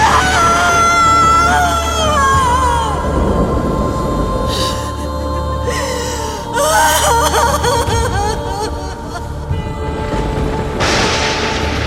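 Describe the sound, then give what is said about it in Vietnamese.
A woman wails over the bodies of her slain children at an execution ground. Her anguished cries waver, rising and falling, over a dense, continuous low background. “Giữa pháp trường, Thiên Ninh ôm xác con, gào khóc thê lương.”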